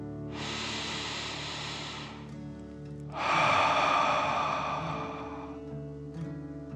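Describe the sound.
Two long, slow breaths during a guided relaxation exercise, each a soft airy hiss lasting a couple of seconds, with the second one louder, over faint steady tones.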